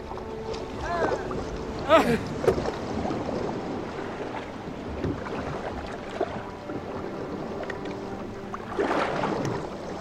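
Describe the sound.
Oars dip and water sloshes as a crew rows a boat on the open ocean. A steady wash of water noise runs throughout, with a few louder splashes standing out, and faint voices in the background.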